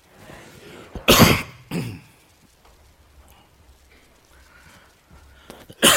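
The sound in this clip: A person with allergies coughs and clears their throat: one loud, harsh cough, then a shorter one. After a quiet stretch, another cough breaks out at the very end.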